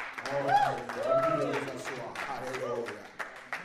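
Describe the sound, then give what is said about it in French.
A church audience claps to acclaim God: scattered hand claps run beneath a loud speaking voice, then sharpen into a few distinct claps as the voice drops away near the end. “Est-ce qu'on peut acclamer le Tout-Puissant?”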